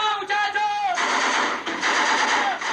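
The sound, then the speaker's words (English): Dense gunfire from a FARC guerrilla assault on the town of Mitu, Colombia, a continuous rattle of shots with a raised human voice mixed in near the start. “For years, FARC guerrillas have destroyed small towns and attacked military posts. They've often videotaped their attacks, as in this relentless assault on the southeastern town of Mitu.”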